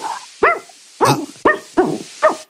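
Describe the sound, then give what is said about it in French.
A woman imitates a dog barking with five short, loud, voiced barks in an uneven rhythm. Each bark has a whiny, yelping edge, and no other talk is heard. “C'est un chien très bien entraîné, mais c'est clairement un humain derrière.”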